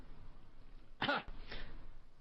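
A man clears his throat with a rough, rasping burst, followed shortly by a second, softer burst. No other sounds stand out.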